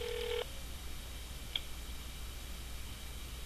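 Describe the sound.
A telephone number is dialed: one short, faint touch-tone beep sounds at the start, followed a moment later by a single soft click over steady background hiss.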